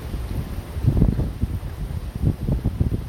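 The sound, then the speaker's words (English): Loud wind blowing outdoors, a continuous low rumble that rises and falls in uneven gusts, with no voices. “What do you sense? Listen. There's some loud wind. Listen.”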